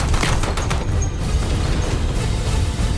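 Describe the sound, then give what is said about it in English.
Gunfire from a rifle shot on a rooftop during a chaotic firefight, set in a loud and continuous barrage of dense crackling shots and heavy booms with no pause. “My bullet left the rifle just as he aimed at Saul.”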